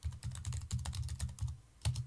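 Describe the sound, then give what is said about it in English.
Typing on a computer keyboard while entering a search on a Windows computer. Many quick keystrokes fall in short bursts with brief pauses between them. “And I'm going to type default web browser.”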